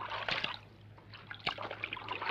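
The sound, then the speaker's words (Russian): Water splashing and trickling as a monkey washes and wrings out a towel in a filled bathtub, faint sloshes and drips in several irregular bursts, with no talk. “Обезьяна стирает полотенце в наполненной водой ванне. Выжимает.”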